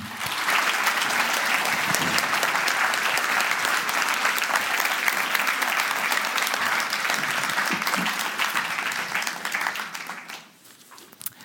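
An audience applauds to welcome guests onto a stage: steady, dense clapping holds for about ten seconds, then thins and fades out quickly, leaving a few scattered claps.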